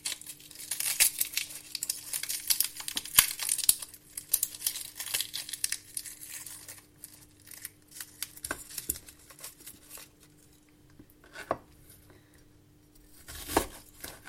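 Dry, papery skin is peeled from a small onion for a risotto base. Many irregular, faint crinkles and crackles come in scattered bursts over a steady low hum.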